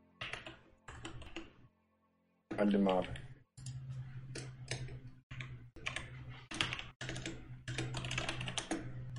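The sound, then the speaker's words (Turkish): Quick, uneven keystrokes on a computer keyboard as a player types character notes during an online role-playing game session, with runs of crisp clicks and short pauses and a voice speaking briefly partway through. “Yok ben şey yazıyorum. Kendi karakter şeklimin notlarını yazıyorum abi.”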